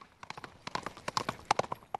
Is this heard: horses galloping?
yes

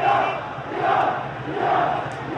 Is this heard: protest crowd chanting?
yes

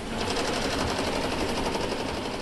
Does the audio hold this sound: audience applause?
no

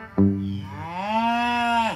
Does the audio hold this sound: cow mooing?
yes

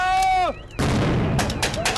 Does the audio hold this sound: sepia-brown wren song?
no

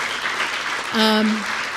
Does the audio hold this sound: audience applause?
yes

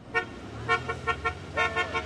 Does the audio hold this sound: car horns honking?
yes

